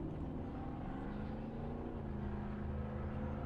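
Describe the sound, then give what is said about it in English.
Engines drone steadily in the background in rural hill country in warm weather, a continuous low rumble that holds even throughout with no breaks and no voices. “I don't know if you can hear the really loud engines in the background here where I am”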